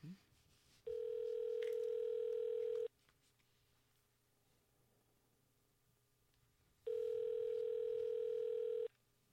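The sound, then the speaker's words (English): Telephone ringing tone heard while placing a call: two long, steady electronic tones of about two seconds each, separated by a pause of a few seconds, over a quiet line. “So let's see if we can get Karsten back on the horn.”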